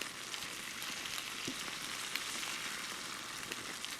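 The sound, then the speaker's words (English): Faint, steady sizzling of cauliflower with curry and olive oil roasting in a cast-iron pan, a continuous crackling hiss dotted with small pops, with no voices. “You roasting that cauliflower, too? And that cast iron?”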